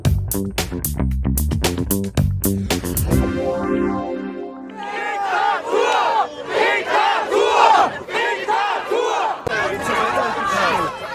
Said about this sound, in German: So klang es letztes Wochenende in vielen deutschen Städten bei den Demonstrationen gegen die Corona-Maßnahmen.